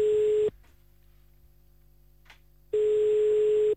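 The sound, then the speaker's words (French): Ringback tone of an outgoing telephone call to Aarschot in Belgian Brabant: a steady mid-pitched electronic tone sounds twice, once at the start and again after a silent gap of about two seconds, with no voices. “On appelle directement à Arscott maintenant.”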